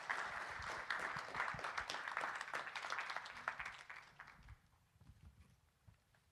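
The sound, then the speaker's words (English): Applause from a church audience welcoming guests: dense, steady clapping that holds for about four seconds, then thins out and fades to scattered claps. “Would you put your hands together and welcome these guys?”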